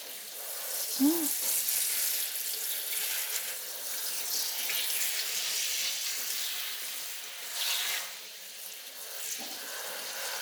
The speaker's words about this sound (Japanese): もうちょっとかな。髪の生え際まで流して、軽く油を流しておかないといけませんからね。